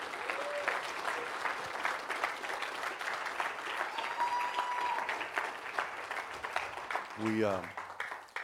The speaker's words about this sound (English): And so I want you to put your hands together.